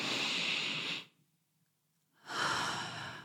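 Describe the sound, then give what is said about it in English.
A deep breath: one long, airy inhale, a short silent pause, then one long, soft exhale. “Now take a deep breath.”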